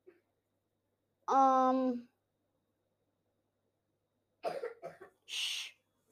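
A man coughing behind a door: a short throaty, voiced burst, then after a pause a quick cluster of coughs, all fairly faint and with no talk.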